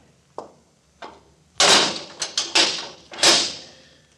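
A morgue door is locked up with a couple of small, sharp clicks, then a cluster of louder clunks and rattles from the door and its lock. The burst of handling noise is irregular and comes without talk.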